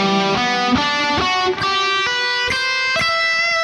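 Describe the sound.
An instrument plays a minor seventh arpeggio with an added ninth in wide intervals, a series of distinct, evenly spaced pitched notes that ring with bright overtones and sound alone.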